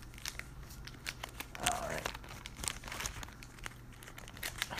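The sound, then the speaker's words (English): Crinkling and tearing of a trading card pack's wrapper being ripped open by hand, a faint, irregular run of crackles and short rips that continues throughout. “Is it not opening up? Yeah, the just rip it, I'm not saving the wrapper.”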